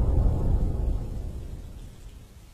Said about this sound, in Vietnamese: Ngoài trời vẫn mưa, trông ra khoảng sân mù mịt, Dương